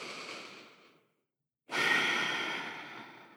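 Slow breathing during guided meditation: a soft breath fades away into a brief silence, then a long, full inhale rises sharply and gradually tapers off, with no talking.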